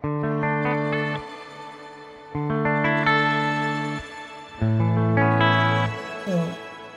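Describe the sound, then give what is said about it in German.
Played notes pass through an octave-shifted reverb effect, the Okto setting, in three sustained phrases whose shimmering tails ring on and fade after each one. “Und dann können wir erstmal den Okto machen. Ja. Da wird dann das, der Hall wird dann oktaviert.”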